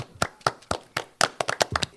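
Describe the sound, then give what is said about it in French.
Sparse hand clapping at a children's Téléthon charity event: a few sharp, separate claps at an even pace, then quicker and more uneven claps from several hands toward the end. “On peut l'applaudir.”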